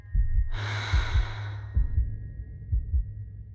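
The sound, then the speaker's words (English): Deep, slow breathing from someone trying to calm down with a pounding heart: one long, loud breath that fades, over a low, regular thumping like a heartbeat. No talk. “I ordered myself to breathe deeply and slowly.”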